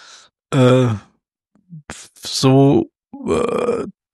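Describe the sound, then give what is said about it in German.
A voice imitates asthmatic heavy panting after running: a few loud, voiced, groaning breaths in uneven bursts, with short silences and small huffs between them. “So, schön asthmatisches also Schnaufen.”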